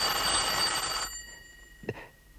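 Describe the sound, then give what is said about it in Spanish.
A telephone bell ringing: one loud, bright, ringing burst lasting about a second, which then cuts off into near quiet broken by a single faint thump. “Déjelo, no lo coja. Pero está sonando. Alguien está llamando.”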